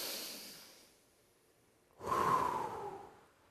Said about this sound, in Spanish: Respirar es inspirar y exhalar, tomar y dar.